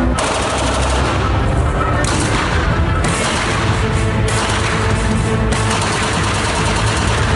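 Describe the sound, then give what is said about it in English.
Rapid, fully automatic gunfire from a Glock 18C machine pistol: loud, dense bursts of cracking shots run almost without a break, and the texture shifts slightly from one burst to the next. “So this is a Glock 18C machine pistol.”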